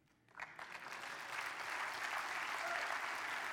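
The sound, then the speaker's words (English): Audience clapping during a sermon: after a brief quiet moment the applause starts and quickly builds into steady, sustained clapping that continues to the end, moderately faint overall. “you better clap at this”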